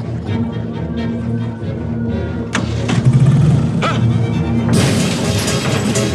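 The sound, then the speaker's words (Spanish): An excavator smashes through a garage door and the fence around it: an engine rumble runs beneath a few sharp crashing impacts, and the loudest breaking burst comes near the end. “La excavadora destroza la puerta. El vehículo atraviesa la valla que rodea a la cochera.”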